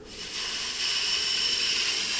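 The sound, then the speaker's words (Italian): Wind howls over a drifting ice floe as a broad, hissing rush that swells early and then holds steady and fairly loud, with no distinct pitch. “il vento grida così”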